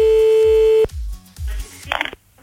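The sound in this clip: A steady mid-pitched ringback tone from a late-night phone call that goes unanswered holds briefly and then cuts off. Low, muffled sounds continue underneath and after it.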